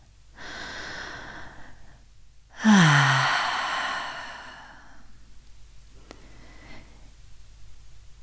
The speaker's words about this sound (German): Vielleicht magst du einfach einmal zu Beginn tief ein- und ausatmen.